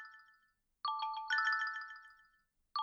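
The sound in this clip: A smartphone ringtone signals an incoming call: bright, melodic electronic tones in a few repeating bursts, with a short pause between them and a new burst starting at the end. No voices.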